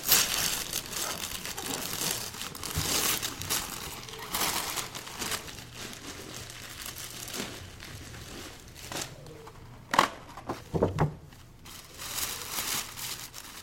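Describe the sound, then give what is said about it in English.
Wrapping paper is ripped open on a gift. A faint, continuous crinkling and tearing rustle runs throughout, with a few sharper crackles toward the end. “Open that up for us. Now that's bold. Did you see that? Rip that right up there.”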